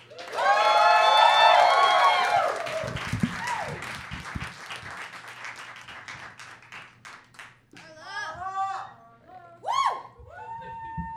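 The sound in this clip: Audience applause and cheering greet a storyteller called to the stage at a live storytelling show; loud clapping with whoops at first, then thinning claps as voices talk over it.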